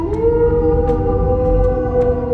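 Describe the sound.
A wolf's howl, one long, steady, loud tonal cry with rich harmonics, held unbroken from start to finish without any talk.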